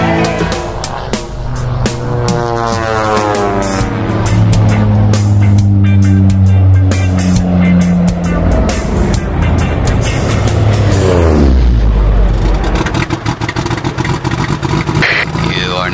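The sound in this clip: A motor running loudly and revving, its droning tone climbing and dipping in repeated sweeps, then dropping low near the end before settling into a rougher steady rumble.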